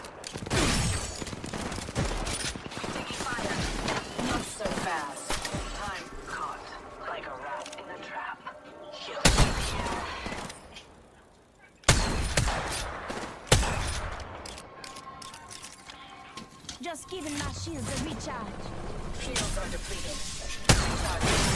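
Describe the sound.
Rapid gunfire from the battle royale video game Apex Legends crackles in dense, loud bursts across many shots, with a few brief gaps, while a voice talks over the shooting.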